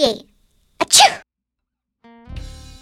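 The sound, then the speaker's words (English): A single loud sneeze: a quick sharp intake of breath followed by an explosive, breathy burst, with brief quieter sounds before and after. “Achoo! Achoo! We all sneeze sometimes.”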